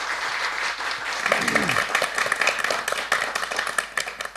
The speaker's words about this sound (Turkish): Güçlü bir alkış alalım efendim bu saz sanatçılarımıza.